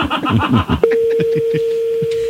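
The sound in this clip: A steady telephone line tone starts abruptly and holds as a call is placed to a payphone at the Eiffel Tower. Voices talk just before the tone and continue faintly under it.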